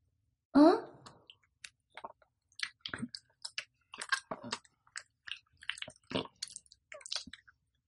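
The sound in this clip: A dog eats and chews food, making many small wet smacks, crunches and clicks in an uneven rhythm after one louder opening sound, while a person talks to it at times.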